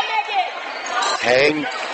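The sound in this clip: A basketball is dribbled on a court during a women's basketball game. Quick bounces sit under a commentator's voice talking throughout.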